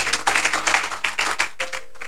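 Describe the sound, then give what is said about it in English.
An audience claps hands at a church service, producing a steady rhythm of crisp, evenly spaced claps with a brief gap partway through. “Give the Lord a clap of hands.”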